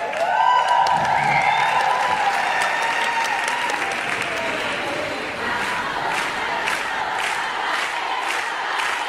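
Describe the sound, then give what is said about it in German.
Thousands of women cheer and applaud to welcome feminist Silvia Federici in Santiago de Chile: a loud, sustained roar of clapping and shouting with a high whoop rising near the start, steady throughout. “Wie ein Popstar wird Silvia Federici von tausenden Frauen auf dem letzten Stopp ihrer Lateinamerika-Reise in Santiago de Chile begrüßt.”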